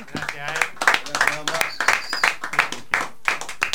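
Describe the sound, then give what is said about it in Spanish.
Hand clapping for a guest named Bamba being welcomed on a Spanish-language show. Steady, quick claps run under continuous talk. “Fuerte el aplauso, gracias por venir”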